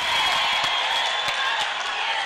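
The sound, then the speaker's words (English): Delegates at Zimbabwe's ZANU-PF annual party conference in Victoria Falls cheer President Robert Mugabe, a dense, steady roar of crowd noise mixed with clapping that stays loud and even throughout. “Those are delegates at Zimbabwe's ruling party annual conference cheering their leader, President Robert Mugabe.”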